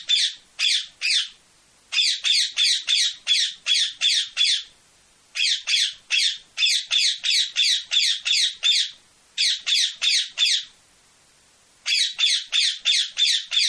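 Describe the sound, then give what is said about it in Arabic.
Parrot squawking: many harsh, loud squawks in quick bursts of several calls each, separated by short pauses, with no talking. “هذا هو صوت الببغاء. الببغاء أو ما يقال عنه في حكينا الشعبي بغبغان، طائر حسن اللون، حسن الصورة، ريشه ملون، منقاره قصير معقوف”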